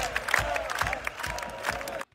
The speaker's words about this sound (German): Da legen sie sich in den Armen, er und der Frontmann der Donuts, und das Publikum ruft seinen Namen.